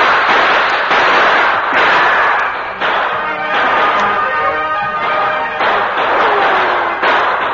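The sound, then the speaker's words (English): Gunshots traded in a Western shootout with two outlaws taking cover among trees at twilight, a sustained barrage of many sharp cracks over dense, rumbling noise, loud and unbroken, without voices. “In the twilight, the Lone Ranger and Tonto exchanged shots with the two remaining outlaws.”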